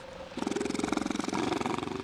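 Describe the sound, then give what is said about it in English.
Fur seals calling near a village on St. Paul in the Bering Sea. A low, guttural, rapidly pulsing call throbs in a steady rhythm after a brief quieter start and holds moderately loud to the end. “Their barking echoes from nearly every corner of the Ununga village.”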